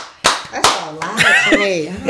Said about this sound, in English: We gotta do our podcast clap.